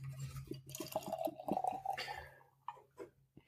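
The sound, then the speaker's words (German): Beer poured out of a can, a faint gurgling stream with light fizz lasting a couple of seconds, followed by a few small scattered ticks. “Wir lassen es einfach mal aus der Dose.”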